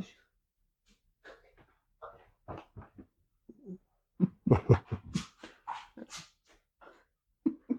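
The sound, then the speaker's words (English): A dog makes a run of short whimpers, yips and breathy snuffles. The bursts are irregular and brief, growing louder and more frequent in the second half. “the dog just came in”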